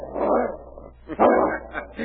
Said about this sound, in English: He not like fox smell, eh? It isn't the fox scent he's growling at.